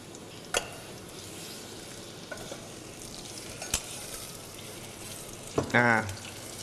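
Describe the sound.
Shallots and garlic sizzle steadily in a pan as sugar goes in, a constant frying hiss broken by a few sharp clicks and stirring scrapes, with a brief louder burst near the end.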